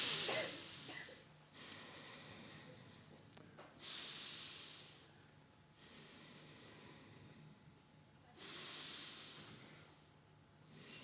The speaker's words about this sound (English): I'd like you to take three deep breaths and exhale.